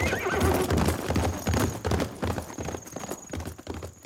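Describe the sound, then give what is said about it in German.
A horse gallops away with fast, continuous clip-clop hoofbeats and a whinny near the start. The pounding stays loud and busy throughout, with no voices. “Wie pfeilschnell sein Pferd davonspringt.”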